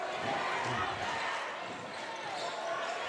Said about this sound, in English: He'll be content to dribble it out.